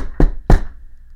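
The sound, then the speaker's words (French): Two firm knocks on a door, loud and evenly spaced, with nothing else around them. “La nuit allait tomber quand on entendit frapper à la porte.”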